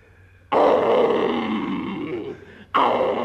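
Lion roar in an Arabian Nights radio drama: a long, deep, rough roar of about two seconds, then a second roar starting abruptly as the first fades.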